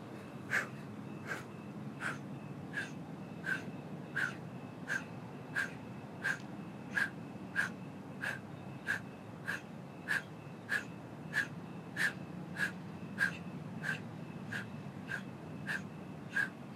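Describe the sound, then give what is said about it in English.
Forceful exhales in a seated breathing exercise come as many short, sharp bursts of breath at a steady, brisk rhythm. Each puff is evenly spaced and of similar loudness, set over a faint low background hum. “Forceful exhale, the inhale will happen automatically. Inhale and begin.”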